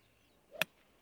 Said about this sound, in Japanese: クラブはウッドを持たれてます。 そうですね、ああいいスイングですね、